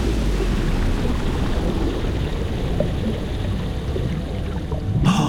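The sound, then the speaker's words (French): Water surges and churns as someone dives into the Mediterranean Sea off the island of Ithaca, Greece; a steady, low rumbling wash with a brief sharp splash near the end. “Et maintenant, on plonge.”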